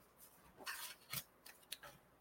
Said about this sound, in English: Let me pull a card for you, dear.